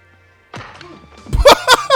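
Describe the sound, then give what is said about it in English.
Film sound effect of a kick in a fight scene: a heavy, low thud followed by sharp whacking hits, loud over faint background movie sound. “Sound effect came before the kick. That hurts before.”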